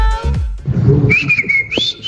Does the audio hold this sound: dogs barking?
no